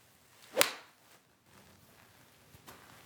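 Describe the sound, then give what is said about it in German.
A golf iron strikes a ball off the ground in a single sharp, swishing crack, followed by near quiet. “Und deswegen jetzt vom Boden, weil ich das Eisen eigentlich meistens vom Boden schlage.”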